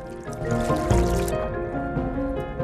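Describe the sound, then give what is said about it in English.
An animal lands in a pool of water after bouncing down a mountain. A brief splash comes near the middle, then softer trickling and dripping sounds, over a sustained tonal background. “Perfect for bouncing down the mountain out of danger. It lands in a pool of water.”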